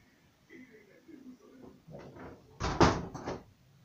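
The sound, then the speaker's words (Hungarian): A door being shut, heard as a short, loud knock-and-rattle near the end with a lighter knock right after, following faint low murmuring. “Ha elmész, akkor zárd be rám az ajtót, jó?”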